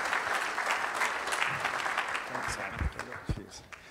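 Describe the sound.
Audience applause welcomes a speaker to the stage at a church service: dense, steady clapping from a crowd that thins toward the end, with a few sharper claps standing out.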